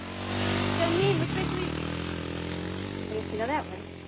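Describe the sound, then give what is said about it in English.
A quad bike engine drones steadily as the rider heads off, a buzzing, even hum that runs throughout, with brief vocal sounds rising over it now and then. “He heads off on a quad bike.”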